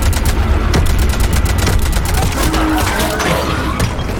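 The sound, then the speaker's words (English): Rapid gunfire from several weapons in a video game battle against husks: many sharp shots in dense bursts over a low rumble, loud throughout. “We're shooting up a bunch of husks.”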